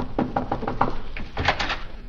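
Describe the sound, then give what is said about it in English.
A house door is answered and opened in a period drama, with a run of dull thumps and knock-like taps followed by a few more muffled bumps. “I'll answer the door.”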